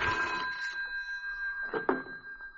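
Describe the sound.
An office telephone rings with a steady electronic bell tone that holds for nearly two seconds, then ends in a sharp clack as if the receiver is picked up.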